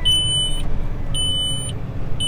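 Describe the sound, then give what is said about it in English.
A tractor's auto steer system beeps while planting a hilly field: long, high electronic tones of about half a second each, repeating at an even pace over a steady engine rumble. “getting the auto steer going here today too. So, beeping along, but trying to get straight rows going out here too.”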